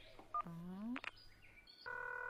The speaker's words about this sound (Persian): آها باش که من نمبرش بگیرم. سبر کو گوشیم.